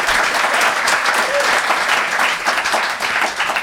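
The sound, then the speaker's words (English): Audience applause: dense, steady clapping from a crowd that holds at an even level for the whole stretch, with no voices standing out. “if you think they made the best case, please applaud now.”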